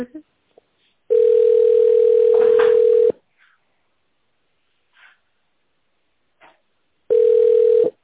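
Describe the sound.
A telephone ringback tone plays while a call is transferred to a department: one long, steady, mid-pitched tone of about two seconds, then a long near-silent gap with a few faint clicks, then the tone starting again and cut off.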